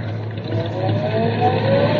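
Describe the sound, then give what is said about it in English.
A car engine accelerating during a driving lesson, a loud, steady roar whose engine tone climbs gradually higher across the short stretch. “Now easy on the clutch and light on the gas. Easy on the clutch and light on the gas.”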